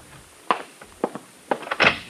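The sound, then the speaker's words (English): Knocking at a room door, several short, sharp knocks in uneven little clusters, with a tighter run of raps near the end, heard alone without talk. “I left my number and was on the point of going out to dinner when there was a knock at the door of my room.”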